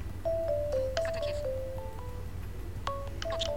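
A phone ringtone signals an incoming video call, playing a melodic run of short, bright tones, pausing, then starting the phrase again. It sounds fairly quiet over a low steady hum.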